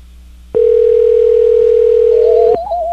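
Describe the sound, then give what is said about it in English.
A phone call ringing out to a home line: one steady ringback tone sounds for about two seconds, then cuts off while a softer wavering tone carries on. “It's calling George Zimmerman's home phone.”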